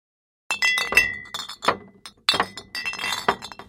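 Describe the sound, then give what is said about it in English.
Glass beer bottles clink and knock together as they are gathered: many sharp, bright, irregular clinks in quick bursts, with brief pauses between clusters. “That is the sound of beer bottles being gathered from across the country.”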